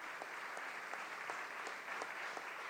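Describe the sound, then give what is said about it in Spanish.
Faint, sustained applause of recognition from an assembly. A crowd claps in a steady, even wash of sound. “Un aplauso de reconocimiento”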